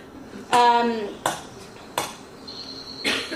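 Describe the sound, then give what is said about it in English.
An alpha male cracks oil palm nuts on a rock outcrop used as an anvil, giving four sharp, hard knocks spaced unevenly apart, each ringing briefly before fading. “He is cracking all these oil palm nuts. This is quite exceptional that he is using an outcrop as an anvil.”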